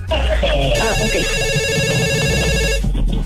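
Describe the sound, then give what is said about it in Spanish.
An electronic telephone ringtone signals an incoming call to a radio request line, a bright warbling melodic chime held for about two seconds over dense background sound. “Tenemos otra llamada telefónica que nos va a decir qué canción quiere dedicar y a quién.”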